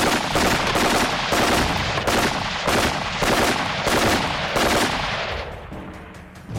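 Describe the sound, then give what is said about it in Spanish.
Long burst of machine-gun fire in a tunnel: a loud, dense rattle of rapid shots that swells and dips in a regular pulsing pattern, then fades near the end. “Maxim se irguió en toda su estatura, con la ametralladora en la mano, y disparó una larga ráfaga”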